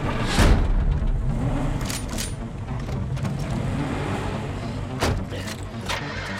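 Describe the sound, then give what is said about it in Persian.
A car engine being started, with a low, continuous rumble and a few sharp thumps along the way. “ماشین رو روشن کن، برو.”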